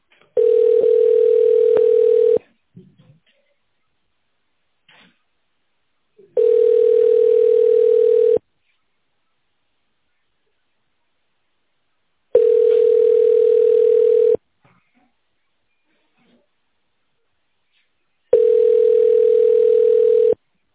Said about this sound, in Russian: Здравствуйте, вы позвонили в компанию МАКОС. Пожалуйста, ожидайте ответа специалиста.